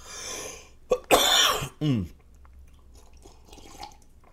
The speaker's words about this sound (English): Hold on a second here. I got a little something in my throat.